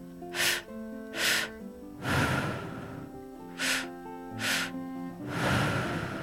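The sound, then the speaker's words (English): Deep breathing through the mouth in a guided exercise: two quick inhales, first into the low belly and then into the upper chest, followed by a long, breathy exhale. The cycle is heard twice. “First breath, breathing deep into the low belly. Second breath, up into the upper chest. All done through the mouth. So it sounds like this.”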